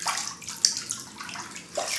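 Water sloshes in a bath laced with bath salts, lavender essential oil and bubbles: soft, continuous swirling and lapping, fairly faint, with a small splash early on and another toward the end.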